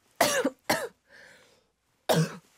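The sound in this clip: A person coughs three times in sharp, loud bursts. The first two come close together and the last follows a pause, with a soft breathy rasp in the gap.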